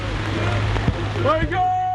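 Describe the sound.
Heavy rain pours onto a football pitch during a friendly match between a parish and a mosque. It makes a loud, steady hiss throughout, with faint voices mixed in.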